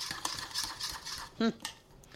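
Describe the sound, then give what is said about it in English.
A spoon stirs raw egg into scone batter in a bowl, making soft repeated scraping strokes with one sharper ringing clink near the end. “Till it's all mixed up. You know, it's weird because this is raw egg in here, but it looks really good.”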